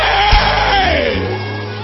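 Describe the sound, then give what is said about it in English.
A church audience gives a loud, dense scream of praise, a continuous roar of many voices that holds for the whole clip, with one shouted tone sliding downward in pitch through the middle. “And if you're about to see such, give him a loud scream of praise.”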